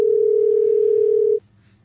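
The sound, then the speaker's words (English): A telephone ringing tone: one steady, loud, mid-pitched tone held for over a second, then cut off abruptly, leaving quiet. “The phone's ringing. Or is that you calling?”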